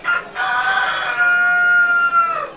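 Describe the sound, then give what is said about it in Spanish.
A rooster crows once, a long, loud, harmonic call that holds steady and then trails off at the end, heard alone with no talk. “upetévo peteĩ gallo osapukái”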